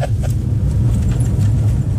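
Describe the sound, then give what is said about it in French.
Low, continuous engine and road rumble from a Fiat Panda driving on dry terrain, a steady dense drone with no talk over it. “Ouais, mais attendez, là, on roule sur du terrain sec. Il faut venir ici l'hiver. Quand il y a de la neige, que le chasse-neige n'est pas passé. Alors là, on se tait dans la voiture, on se tait dans la Panda.”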